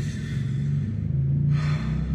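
A deep breath drawn by a person who feels rushed, a soft, airy rush of breath that swells into a brighter hiss near the end, with no talk.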